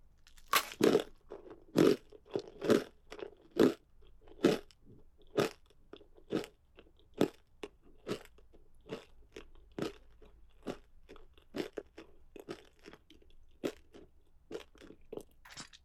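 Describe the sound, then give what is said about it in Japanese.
Bones being chewed, with many sharp, irregular crunches and cracks as they are bitten and broken up, each followed by softer grinding in between. “骨は噛み応えも抜群。”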